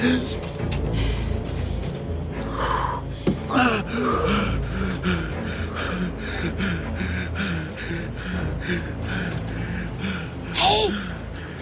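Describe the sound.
Heavy, gasping breathing from a man hiding among tree trunks, many rough breaths and snorts in an uneven rhythm that swell loud near the end.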